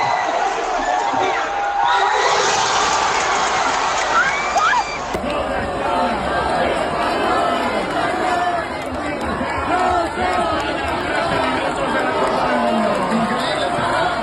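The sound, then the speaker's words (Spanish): Crowd celebrating an extra-time goal that won Spain a World Cup, outdoors in a park in Gijón: a loud, continuous roar of cheering and shouting voices that holds steady throughout. “Son sonidos, lo dicho, del patio de la laboral o del Parque Hermanos Castro en el momento del gol”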